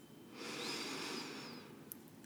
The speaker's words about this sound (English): Go ahead and take a nice deep breath in all the way down to the belly.